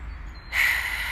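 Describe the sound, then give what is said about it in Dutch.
A single deep, deliberate breath drawn in during a simple guided mindfulness exercise, heard as a soft, breathy inhale that begins about halfway through and holds steady to the end, with no talking. “Haal een keer bewust diep adem. Dus adem in.”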